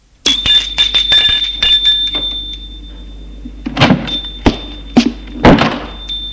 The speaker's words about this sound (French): Lorsque François sonna.